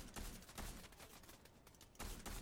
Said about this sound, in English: I'm getting shot at.